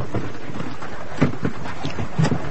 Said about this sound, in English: Wind's getting up. I'm going to get me coat.